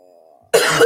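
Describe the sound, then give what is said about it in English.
A single harsh cough bursts out loudly and lasts about a third of a second, following a faint, quiet tone at the start. “I just know I needed to start coughing. And I didn't want to be coughing on the mic.”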